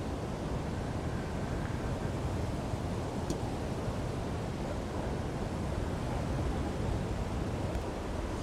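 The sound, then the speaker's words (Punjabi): Water rushing at high speed through the fully opened gates of a large river barrage head, a loud, steady roar of broad noise that stays constant from start to finish. “ਔਰ ਇਸ side ਤੋਂ ਮੈਂ ਤੁਹਾਨੂੰ ਦਿਖਾਲਦਾ ਵਾਂ ਪਾਣੀ ਜਿਸ side ਤੋਂ ਆ ਰਿਹਾ ਵਾ, ਔਰ ਬਹੁਤ ਹੀ ਸਪੀਡ ਨਾਲ ਪਾਣੀ ਆ ਰਿਹਾ।”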